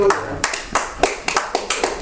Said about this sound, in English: Give God a clap profile.